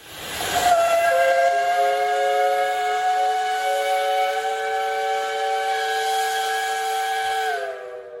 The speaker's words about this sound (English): That's the iconic steam whistle on the campus of the Georgia Institute of Technology. The whistle was first installed way back in 1892 and was meant to help regulate day-to-day life